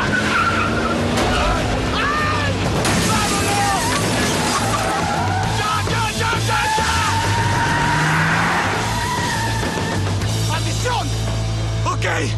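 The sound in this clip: A car starting and speeding off with tires skidding as people flee an armed attacker: a continuous loud engine roar with screeching tire squeals, under shouting voices throughout.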